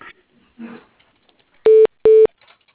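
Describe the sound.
A telephone line gives two short, loud, steady electronic tones of equal pitch as an office call is transferred to voicemail, after a few faint low sounds.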